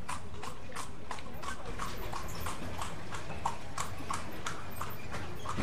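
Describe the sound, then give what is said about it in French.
Steady clip-clop of a horse's hooves pulling a cart along a city boulevard, many even beats over a constant low rumble with no talk. “La charrette a remonté le boulevard.”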